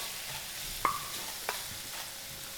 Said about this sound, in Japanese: ちょっとお肉に焼き色がついてきたなと思ったらひっくり返して、